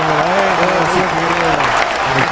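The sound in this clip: Studio audience applause, steady and fairly loud, running under a person speaking for the whole clip.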